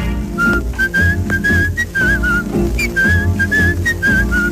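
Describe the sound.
A person whistles a lilting tune in a song over accompanying music, the whistled melody clear and bright, moving through short phrases of rising and falling notes above a steady instrumental backing.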